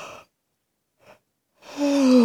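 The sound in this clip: Breathing out during a slow breathing exercise: a short breathy hiss, a pause, then a long voiced, sighing exhale that falls slowly in pitch.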